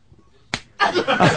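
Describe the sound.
One sharp, loud slap of a hand striking a person, followed at once by voices.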